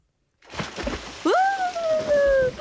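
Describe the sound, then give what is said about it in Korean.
A person jumping into the Han River sets off a broad splashing, sloshing water rush, joined midway by a whistling tone that glides up sharply, then sinks slowly while the water keeps churning. “아유, 더 이상 무슨 말이 필요하겠어요? 바로 입수해보겠습니다.”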